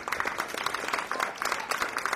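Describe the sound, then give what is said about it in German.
Approving applause rises from bystanders at a protest rally against new drilling, a steady patter of many hands clapping throughout without a clear break. “Zustimmender Applaus bei den Umstehenden.”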